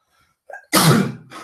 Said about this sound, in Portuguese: Vou espirrar de olho aberto agora, peraí. Ai, espirrar de olho aberto.